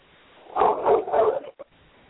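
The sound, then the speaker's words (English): A dog barks three times in quick succession, then gives one brief, short yelp. The barks sound muffled and thin, with no talk alongside. “was that dogs barking? I didn't hear that very clearly. What was that noise? That was my dog.”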